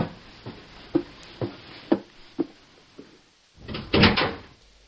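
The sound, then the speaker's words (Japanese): A room door is shut and locked: a run of about six evenly spaced soft knocks, then a louder rattling clatter near the end, with no talking. “バタン。部屋のドアを閉め、鍵をかけた。”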